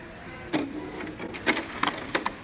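Mechanical whirring of a printer at work, broken by a few sharp clicking bursts as the paper feeds through. The clatter is faint and uneven and comes without talk.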